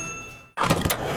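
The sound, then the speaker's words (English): Fuel pump filling up a car: a low mechanical hum cuts out for a moment, then a loud steady rushing hiss of flowing fuel starts and continues. “That sound you hear? That's your regular fill-up at the pump.”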